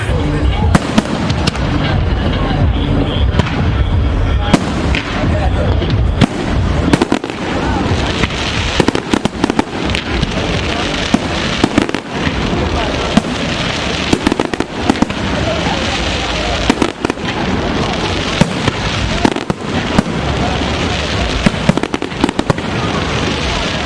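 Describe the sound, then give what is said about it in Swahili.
Fireworks launch the Nairobi Festival in a long, dense barrage of sharp pops, bangs and crackling bursts that never lets up, with voices underneath. “Na msikilizaji, hivyo ndivyo lilivyozinduliwa tamasha la Nairobi ama Nairobi Festival kwa fataki zilizorushwa”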